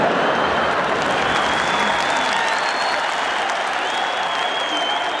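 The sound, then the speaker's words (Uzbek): An audience applauds with dense, loud clapping that runs steadily from start to finish without a break. “Qarsak chalganlarga kattakon rahmat”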